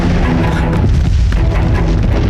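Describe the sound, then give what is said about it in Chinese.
Wartime howitzer and field gun artillery explosions form a loud, continuous rumbling roar of overlapping booms, with no clear gaps between blasts. “这是榴弹炮和野战炮的爆炸声响，只有日军的主力部队才有”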